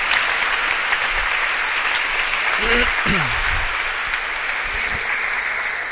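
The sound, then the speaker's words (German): A church audience claps for the Lord: dense, steady applause that holds loud for the whole stretch, with a voice speaking briefly over it partway through. “Give the Lord a hand. Gebt dem Herrn Jesus einen Applaus.”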